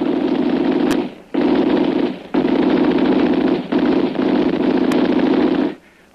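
Machine gun fire rattles in several long, sustained bursts separated by short gaps. The gun is loud and steady, fired at someone crossing an exposed path in view of a house.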